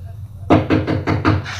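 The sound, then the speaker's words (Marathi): Knocking on a door: six firm, evenly spaced raps after a short quiet lead-in, loud and dull with a low thud, over a faint steady hum. “खरंच कुणी दरवाजा ठोठावला काय हो.”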